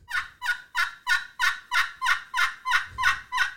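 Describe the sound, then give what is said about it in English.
A hand-made custom hunting game call is played in its center and gives eleven sharp, turkey-like yelps in a steady, even rhythm. Each yelp is bright and raspy, and no other sounds are heard. “most of these calls, you can see I got them etched on the side. This one you can kind of, you know, call around the really not the edge, but kind of like here. Right. Now, these you call right in the center.”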